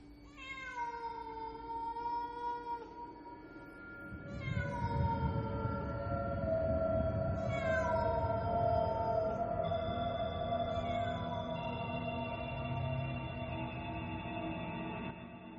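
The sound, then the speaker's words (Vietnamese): A cat meowing in a house, four long drawn-out cries that each slide downward in pitch, over a low rumbling drone that begins partway through. “Không biết con mèo nhìn thấy gì, nó kêu lên mấy tiếng, nó nhảy phát qua khe cửa sổ, nó lao vút ra khỏi nhà.”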